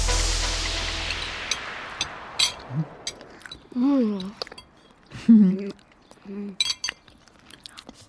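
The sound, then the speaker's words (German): People eat lime cake: a ringing clink fades at the start, followed by soft chewing, crunching and cutlery clinks, with a few short voiced murmurs in between. “Schön, dass es euch schmeckt. Drei Stücke schaffe ich noch. Oh. Wunderbar zitronig. Limettig. Die Limette macht den Unterschied.”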